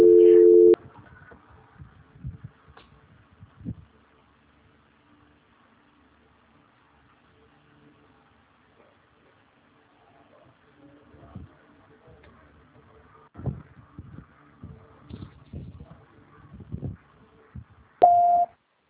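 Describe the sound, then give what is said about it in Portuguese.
Telephone call transfer tones: a short steady beep opens, then near silence with scattered faint clicks and ticks, and another brief tone sounds near the end. “Só um minuto, por favor, que eu vou transferir a sua ligação. Transferência.”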